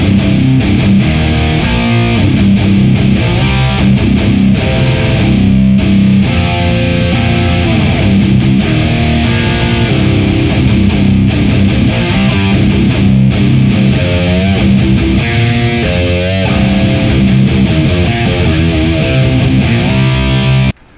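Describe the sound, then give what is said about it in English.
High-gain electric guitar with a Boss IR200 added, loading a Thermi FA1 Uber 75 impulse response. Thick, loud, saturated riffing with palm-muted chugs and sustained notes plays nonstop, with no talking. “And when we add the Boss IR200 running the Thermi FA1 Uber 75, it sounds like this.”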